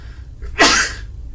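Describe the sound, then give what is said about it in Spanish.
One sudden, forceful human sneeze, a brief loud burst of breathy noise that swells sharply and fades within half a second, heard alone without talk. “Prefiero que estornudes tú que no yo. No, porque cuando estornudo veo las estrellas.”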